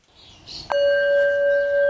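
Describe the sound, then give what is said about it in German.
A gong struck once to open a kindergarten morning circle, a clear metallic strike followed by a bright, sustained ringing tone that holds steadily and evenly after a short stretch of faint sound. “Der Gong im Morgenkreis kündigt es an.”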